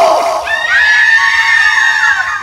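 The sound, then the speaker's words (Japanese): A group of people scream on cue in one long, high, shrill cry. It jumps up in pitch early, then drifts slowly downward and tapers off, sounding as if it is moving away. “今のさ、今の悲鳴は、いやーって、遠ざかる悲鳴だった。”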